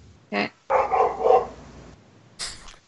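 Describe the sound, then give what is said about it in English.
A dog barks a few times with no voices: a short sharp bark, then a longer, rougher burst, and after a pause a final high yip. “1 second while I be right back to quiet a dog.”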